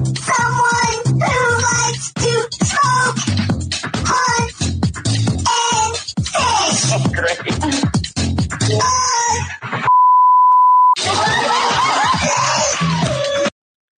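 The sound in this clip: A censor beep cuts across a reality TV conversation: one steady, loud, pure tone lasting about a second, with people talking before and after it.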